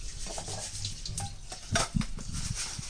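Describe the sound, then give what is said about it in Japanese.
Rice being washed by hand in a bowl of water, a steady soft swishing and rubbing with a few brief louder splashy scrapes near the middle, heard alone without talk. “まずお米を洗います。”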